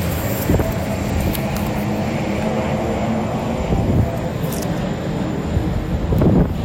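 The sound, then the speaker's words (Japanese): An amphibious boat speeds past near a waterfront terminal in Odaiba, Tokyo, with a steady, loud engine roar and broad rushing noise that holds fairly even throughout, without voices. “うわ、なんだあれ、あれは何でしょう、水陸両用の船かな。すごい勢いで走ってきますね。”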